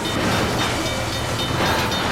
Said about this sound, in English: Even the mighty semi is no match for the monstrous train.